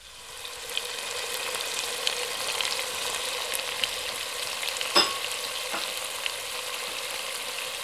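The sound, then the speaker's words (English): A sauce of sugar and red wine vinegar sizzles in a pan as it is stirred. A steady, even hiss carries on throughout, broken by occasional faint clicks and one sharper knock near the end. “We're just going to stir and cook that for a couple of minutes. Kind of let that develop into a bit of a sauce.”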